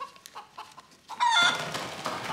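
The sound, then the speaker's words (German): A hen being handled clucks in a few short, soft bursts, then gives a louder, drawn-out squawk that continues as a rough, agitated cackle. “was machen Sie da eigentlich mit dem armen Huhn?”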